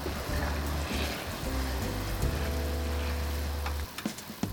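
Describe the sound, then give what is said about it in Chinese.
Spicy sauce seasoned with salt and sugar boiling hard over high heat, a dense, steady bubbling hiss that drops near the end into a few scattered pops. “然后开大火把酱汁煮沸，加入盐和糖调味后，让酱汁滚个五分钟，这样香料的风味就能充分的融入酱汁中。”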